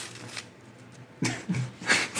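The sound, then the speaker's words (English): Crinkly tearing of a Trident sugar-free gum packet, a 14-stick pineapple twist pack, being ripped open: a few sharp papery bursts of rustling and ripping over a quiet background, with no talk. “You gotta rip it out. 14 sticks, sugar-free gum.”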